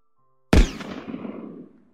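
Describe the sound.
A gunshot fired inside a prison cell: one sudden, loud crack with a heavy low thump, trailing off into a noisy ringing decay over about a second and a half, with nothing else heard.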